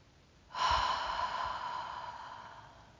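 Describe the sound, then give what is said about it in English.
A slow, deep breath: one soft, airy rush of air that begins abruptly and fades gradually over a few seconds, heard alone without talking. “Follow your breath as you slowly inhale and let it go.”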